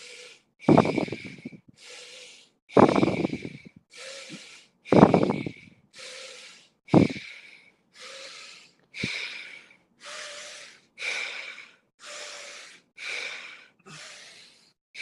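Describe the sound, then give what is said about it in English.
Steady breathing in and out through the nose, with many even inhale and exhale cycles in a regular rhythm. Each breath is an airy, hissing rush, and no other sound is heard. “Just through the nose, inhaling, exhaling, belly rises and falls. Just find a steady pace. Doesn't have to be your fastest. just a steady breath to kind of bring some energy and airflow to the brain, to the body.”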